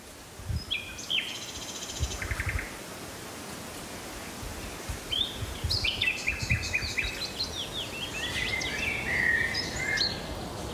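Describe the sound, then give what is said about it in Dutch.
A nightingale sings in the first weeks of spring in Neerritter, delivering a few separate phrases of sharp whistles, repeated notes and quick trills over a low rustling background hiss. “Luisteraar Frenk Jansen meldt zijn eerste nachtegaal op Heijort te Neerritter.”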